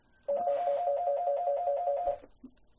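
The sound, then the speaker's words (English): A telephone rings once with a loud, warbling electronic trill that holds steady for about two seconds and then stops. “And the telephone is ringing.”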